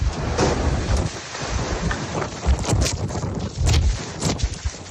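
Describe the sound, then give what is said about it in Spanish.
A downburst drives strong wind gusts of over 90 km/h along the coast at Torrevieja. The wind roars and buffets the microphone with a deep, continuous rumble that surges in several stronger gusts. “Localidades del litoral entre Santa Pola y Guardamar del Segura sufrieron rachas de viento de más de 90 kilómetros por hora. Así sonaba el que azotó Torrevieja.”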